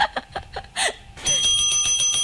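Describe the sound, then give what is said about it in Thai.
A bright bell rings out with a sustained, shimmering tone through the second half, following a few short, sharp sounds at the start. “กดกระดิ่งก่อนกดกระดิ่งเรียกซับนะคะ”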